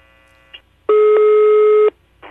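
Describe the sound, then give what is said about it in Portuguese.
Telephone line tone during a redial of a call: a brief electronic blip, then one loud, steady buzzing tone lasting about a second, then another tone starting at the end, with no talk. “Eu não tô entendendo, não tô ouvindo. Eu vou ligar de novo”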